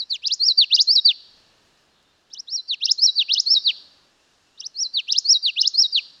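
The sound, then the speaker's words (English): Common yellowthroat song: three separate bursts of rapid, high-pitched, repeated chirping phrases, each about a second long, with short silent gaps between them and no other sound. “That was the song of the common yellowthroat.”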